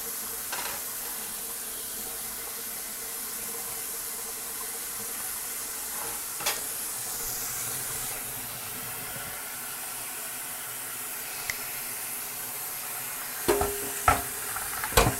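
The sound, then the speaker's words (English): A hot pan sizzling as it is rinsed in cold water gives a steady, continuous hiss at moderate level throughout, with a few sharp clatters toward the end. “I'm going to just rinse out the pan in cold water because it's going to be hot.”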